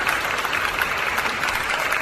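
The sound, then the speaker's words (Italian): Applause at a live talk on history and philosophy: dense, steady clapping from many hands, loud and continuous for the whole two seconds with no clear breaks. “È un momento, un segmento da segnare, questo, un applauso che ci vuole, insomma, per i grandi che hanno pensato prima di noi”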